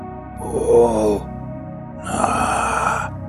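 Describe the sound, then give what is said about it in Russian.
A voice imitates the rustling rasp from a dead man's rotten throat: two drawn-out, groaning breaths, the second harsher and more strained than the first, with a short pause between them. “Шелестящий хрип из прогнившей гортани.”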